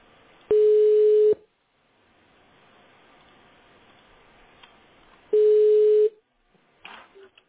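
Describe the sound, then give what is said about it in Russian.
Two long, steady telephone ringing tones sound while a call connects to a client. Each tone is a loud single pitch lasting almost a second, with soft hiss in the gap between them and a brief faint crackle at the end. “Обожди звонок. Соединяем с клиентом.”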